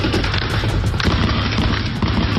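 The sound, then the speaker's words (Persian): Dense, continuous gunfire from a semi-heavy machine gun shooting into the Mahshahr reed marsh where protesters had taken refuge. A loud, unbroken roar of overlapping shots and booms runs throughout, with no clear gaps between the bursts. “شاهدان عینی میگن در شلیک به نیزار ماهشهر که معترضان به اون پناه برده بودند، از تیربار هم استفاده شده.”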